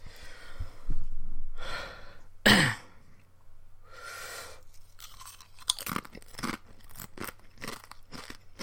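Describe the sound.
Crunchy spicy chips being chewed: many sharp crisp crunches, mostly in the second half, with a loud burst of noise near the middle and a few breathy swells. No talk.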